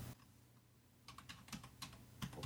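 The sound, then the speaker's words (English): Typing an email address on a computer keyboard: a quick, irregular run of many faint keystroke clicks that starts after a second of near silence. “Okay, it automatically puts you into a field where you type your email address. So I will do that right now.”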